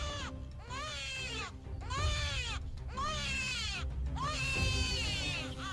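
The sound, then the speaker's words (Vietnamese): Newborn baby crying loudly: four shrill, wavering wails, each rising then falling in pitch, separated by short breath gaps. “Bỗng nhiên chúng tôi giật mình bởi vì nghe tiếng trẻ sơ sinh khóc ré lên.”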